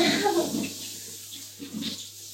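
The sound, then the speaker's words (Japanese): Water splashing and running in a bathroom while long hair is washed with shampoo, loud at first, then fading to quieter dribbles and light splashes. “とりあえず頭をね洗ってるんですけど、長いから結構シャンプー使います。”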